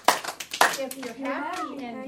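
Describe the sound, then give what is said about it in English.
Children clap their hands twice in quick succession, sharp and bright, then voices of young children sing a song together at a steady pitch. “If you're happy and you know it, clap your hands.”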